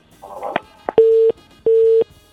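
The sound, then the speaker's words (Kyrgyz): Telephone busy signal after a caller hung up during a call-in. A couple of soft clicks come first, then evenly spaced short mid-pitched beeps: two complete tones and a third just starting, each about a third of a second long. “Эмнегедир байланышты үзүп койду угарманыбыз.”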